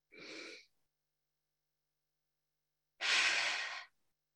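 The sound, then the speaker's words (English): Two slow, deep breaths taken during a worship gathering: a short breath, a long pause, then a longer, fuller breath, both soft and airy with no talk. “Let us take a few smooth breaths together.”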